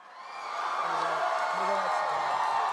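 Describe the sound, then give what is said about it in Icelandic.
Audience cheering for Robert Downey Jr., a sustained crowd roar that swells in the first half-second and then holds steady, with a voice audible over the noise. “Ný gríma, ný verkefni, sagði grænklæddi Robert Downey Jr. Við trillt fagnaðalæti viðstættra eins og heyra mátti.”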